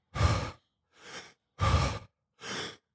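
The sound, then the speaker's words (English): Deep breathing, with breaths drawn in and let out in a relaxed way, gives four airy breath sounds that alternate between louder and softer, with short silent gaps and no talking. “he really focuses on, you know, breathing in and then just letting it go without effort”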